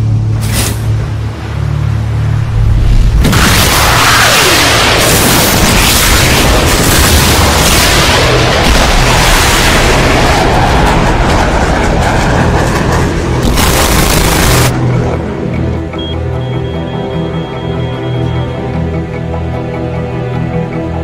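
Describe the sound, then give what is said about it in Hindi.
A missile is fired and explodes: after a short lull, a long, loud roaring blast carries on for many seconds with sharp bangs inside it. A final brief burst follows, then the sound drops to a lower, steady rumble. “ठीक है, तुम missile fire करो। Fire.”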